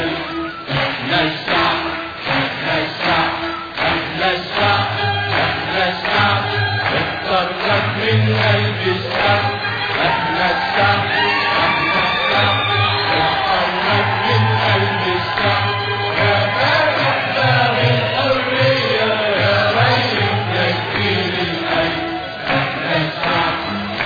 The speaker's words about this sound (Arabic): حلاوه الشعب وهو بيهتف باسم حبيبه مبروك عالشعب